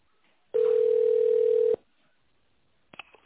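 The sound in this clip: Telephone ringback tone while a business call connects: one loud, steady single-pitch tone lasting about a second, then silence, then brief bursts of line noise at the end.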